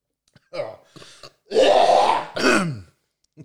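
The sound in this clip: Throat clearing after a sip of stout: a few short, rough grunting bursts, then two longer, louder rasping efforts and a brief final catch.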